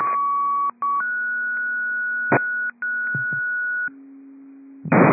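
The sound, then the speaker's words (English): Radio test tones play as a series of steady electronic tones. The pitch shifts between segments, with brief dropouts between some of them, and a short burst of noise closes the sequence. “District 15, test tones only, test tones only”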